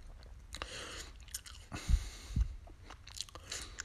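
A juicy, slightly sweet apple is bitten and chewed, with soft, moist mastication and a couple of sharper crunches near the middle. The sounds are faint and no one speaks.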